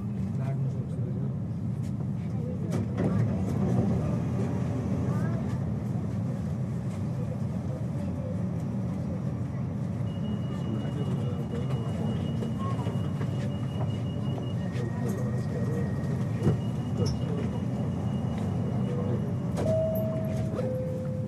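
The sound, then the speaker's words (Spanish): A Copenhagen metro train running on the airport route gives a steady low rumble throughout, with faint tonal whines rising above it at times. “Hold venligst afstand til dørene. Metro de Copenhague.”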